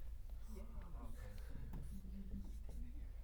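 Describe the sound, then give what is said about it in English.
Soft scratchy drawing strokes as a diagram of Jericho is sketched, faint and irregular under low talk. “Here, I'll draw it for you.”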